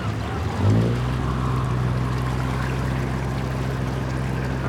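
A motor launch arrives on the water: a steady, low engine drone with a clear harmonic hum that starts abruptly about a second in and holds at an even, fairly loud level, with a faint watery wash beneath it.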